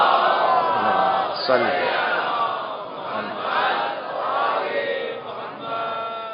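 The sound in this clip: An audience loudly chants salawat together at a religious gathering. The mass of voices swells and recedes in several waves throughout, with no pause.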